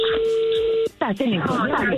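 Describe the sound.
A telephone dial tone as a number is called, a steady single-pitched hum lasting under a second that cuts off abruptly. Voices take over right after.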